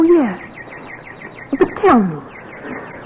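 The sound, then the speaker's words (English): A nightingale sings in a peach tree, its quick repeated chirps faint and steady throughout, mostly under a man and a woman talking. “Oh, listen, Fanny. There's a nightingale there in the peach tree.”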